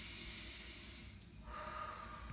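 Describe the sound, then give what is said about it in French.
Deep exhalations, taken to calm down and feel better, come as two long, breathy hissing out-breaths separated by a short pause, fairly quiet and with no talking. “quand il fait houhou, il faut que je respire pour mieux me sentir.”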